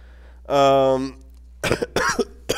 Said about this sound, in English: you'll notice I have a bit of a cough.